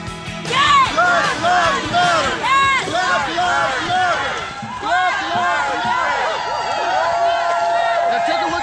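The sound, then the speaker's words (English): A crowd of marchers from Charlottesville arrives in Washington, D.C., shouting. Many loud, overlapping voices chant and yell in surging bursts over a continuous roar of the crowd. “That's the sound of Charlottesville marchers arriving in Washington, D.C. yesterday, captured by the Daily Caller”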